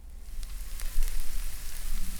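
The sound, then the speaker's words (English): Sizzling sound effect evoking hot summer weather: a steady, fairly quiet hiss sprinkled with faint crackles and pops, heard alone without voices. “Smoldering. That's the sound of my skin sizzling off from stepping outdoors.”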